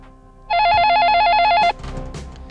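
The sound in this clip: A telephone rings with one loud, steady electronic warbling trill lasting just over a second, then cuts off, leaving low background noise.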